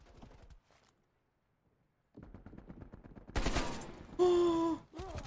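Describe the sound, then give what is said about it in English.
Gunfire in a video game shooter: after a short quiet spell comes a rapid rattling run of shots, then louder, harsher blasts and a brief sustained tone, then more shots. “Oh, I'm under fire, boys.”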